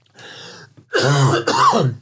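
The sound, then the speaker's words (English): Coughing and throat clearing from a piece of candy stuck in the throat: a quieter rasping clear, then two loud, harsh, voiced hacking bursts close together. “I just got a piece of candy. Piece of candy stuck in my throat.”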